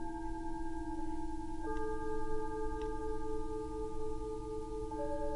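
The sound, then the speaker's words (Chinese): Music built from telephone redial tones: steady, overlapping electronic tones held together like chords, shifting to new pitches a few times, with faint clicks between and no voices. “我创作了很多很多不同的重拨的声音，重拨的乐曲。”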